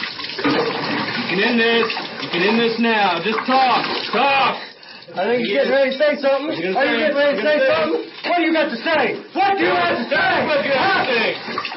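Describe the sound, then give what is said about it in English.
Waterboarding by military personnel, with water poured over a cloth stuffed in a man's mouth and into his nose and throat, gives continuous splashing and gurgling under strained vocal sounds while a man speaks over it in short, insistent phrases. “That's the sound of waterboarding performed by trained military personnel”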